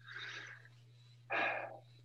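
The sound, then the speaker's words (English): A deep breath is drawn and let out as two soft, airy breath sounds, the second stronger and fuller than the first, over a steady low hum. “When somebody comes after me or you, a good breath will do wonders.”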